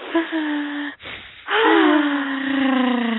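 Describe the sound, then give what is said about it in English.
A short, sharp breath is drawn in between voiced sounds, then let out as a long, loud, voiced sigh that falls in pitch. “we need to take a deep breath”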